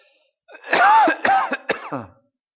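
A person who is ill gives three harsh, voiced coughs in quick succession, the first longest and loudest, with silence before and after.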